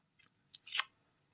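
Someone takes a quick swallow of a drink during an interview: a faint tick, then a short hissing, slurping burst, alone in quiet.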